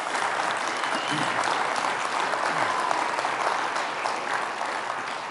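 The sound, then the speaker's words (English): A church audience applauds its volunteers at an Advent service. The clapping is dense and sustained for several seconds and tapers slightly at the end. “can we give them a round of applause and thank”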